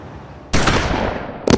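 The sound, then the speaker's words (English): Gunshots ring out: a loud, sustained crackling burst of fire followed by a single sharp, louder shot, with no voices. “I heard shots.”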